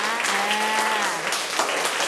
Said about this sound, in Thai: นักเรียนปรบมือให้กับตัวแทนค่ะ